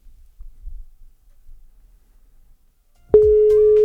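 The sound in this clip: Telephone ringing tone beeps in as a single steady mid-pitched electronic tone after a near-silent stretch, loud and sustained to the end, with faint low rumble beneath.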